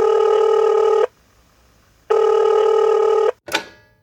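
Ringing tone on an outgoing telephone call: two steady, loud buzzing rings of about a second each, separated by a silent pause, then a sharp click as the line is picked up.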